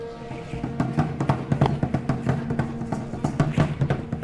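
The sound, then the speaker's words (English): Drums playing in a far corner of the Zocalo in Mexico City, many rhythmic beats that rise and fall in loudness in an ongoing pattern. “We hear drums and follow their sound to a far corner of the Zocalo.”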